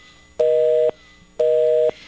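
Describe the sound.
Telephone busy signal after dialing a number: two identical half-second bursts of a steady dual-pitched tone, separated by silence, with nothing else heard.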